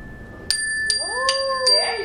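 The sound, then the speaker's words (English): A small bell rung by a child during a classroom counting game: four bright metallic dings at even intervals, each ringing on with a clear sustained tone. “Now, ring that bell.”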